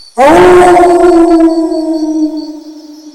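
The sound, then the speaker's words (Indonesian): A wolf gives a single long, loud howl that starts abruptly, lifts slightly in pitch at the onset, then holds a steady tone before gradually fading. “Serigala. Serigala. Wolf. Wolf.”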